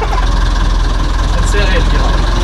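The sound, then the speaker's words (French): A truck engine rumbles at a low, steady pitch under loud conversation. The truck has an unsynchronised gearbox and no power steering and is being driven over a rough course while carrying water. “C'est facile à manipuler ce camion? C'est assez dur, il n'y a pas de vitesse synchronisée, il n'y a pas de direction assistée.”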